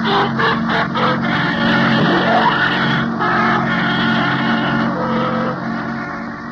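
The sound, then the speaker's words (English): A taxi cab drives away with a steady, dense motor rumble. The rumble holds at an even level and eases slightly toward the end. “You watch from your hotel window. See Frank get into the cab and drive away.”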